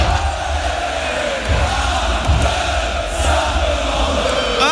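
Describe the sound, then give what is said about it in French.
A concert audience sings along in unison. Loud massed voices with some shouting run over a heavy low rumble without a break. “Et les Américains, en fait, ne comprenaient pas ce que le public chantait. Ah, et ils trouvaient ça génial. Ah, c'est cool. Écoutez ça. Par exemple ce qui s'est passé là.”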